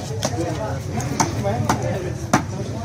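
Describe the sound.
Sharp hatchet chops cut fish into pieces at the Sherkhan port fish market, a few crisp, dry thwacks at uneven intervals over a steady murmur of background noise.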